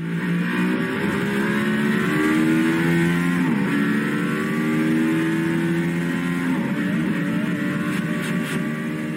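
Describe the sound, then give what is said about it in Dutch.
A Mercedes-AMG One hypercar with Formula 1 technology drives fast, its loud, high-pitched engine howling steadily, the revs dropping abruptly a couple of times, as at gear changes. “Ja, de Mercedes AMG One. De hypercar van Mercedes-Benz. Een auto met Formule 1 technologie.”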